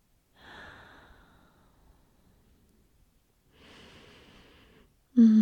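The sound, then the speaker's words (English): Slow, deep breathing during a guided relaxation exercise: two soft, airy breaths separated by a long quiet pause, followed by a short, louder sound at the very end. “Close your eyes and breathe.”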